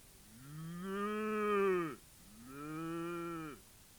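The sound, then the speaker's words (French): A large cow moos twice, two long, loud, harmonic calls of about one and a half seconds each, separated by a short pause, with no other sounds. “Elle rencontre une grande vache,”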